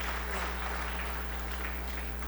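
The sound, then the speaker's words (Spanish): An audience at a church service applauds with a faint, steady wash of clapping over a low constant hum. “Fuertes los aplausos a nuestros hermanos.”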